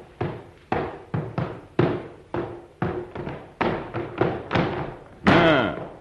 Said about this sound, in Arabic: والآن يا حسان مولاي، افتح هذا الصندوق على بختك أيها الوزير.